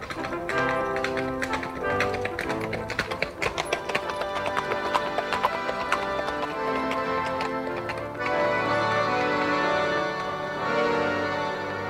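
Horses' hooves clip-clop on a journey, horses carrying two well-equipped riders; a dense, steady run of many rhythmic taps continues throughout at a moderate level.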